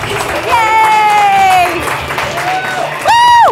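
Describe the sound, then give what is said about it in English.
Audience applause and cheering: drawn-out, high shouted cheers rise over a steady wash of clapping, with a second loud burst of cheering near the end. “Without further ado, please put your hands together for your girls evening, Jen Candy!”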